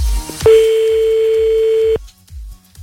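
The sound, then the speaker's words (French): Telephone ringing tone during an outgoing call: a single steady mid-pitched tone holds for about a second and a half, then cuts off abruptly, with faint low rumbling in the background. “C'est parti, on y va, on appelle. Comme tout à l'heure, dès que ça ne sonne plus, il faut parler”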